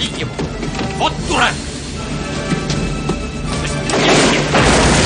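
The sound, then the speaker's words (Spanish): Barrels explode amid gunfire in the 1996 action film Eraser. Heavy booms and crashes burst over a dense, rumbling background with voices, and the loudest blast comes near the end. “Comienzan a dispararle y los barriles estallan a su alrededor.”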